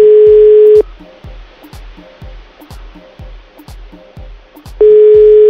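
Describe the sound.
Unanswered phone call ringing back: a steady mid-pitched tone at the start and again at the end with a long silent gap between, while a faint regular low thump keeps a steady beat underneath.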